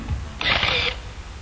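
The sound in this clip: A camera shutter fires once to take a photo, a short bright mechanical burst lasting about half a second over a low background rumble.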